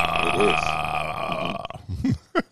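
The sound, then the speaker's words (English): A burp from someone drinking imperial stout: a drawn-out voiced belch, then two short guttural bursts near the end, fairly loud and alone. “Were you just burping them?”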